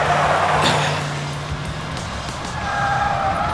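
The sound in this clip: A car is driven hard at full throttle to escape zombies. Its engine gives a steady, rough roar with broad road noise and a low hum that drops away partway through. No voices are heard.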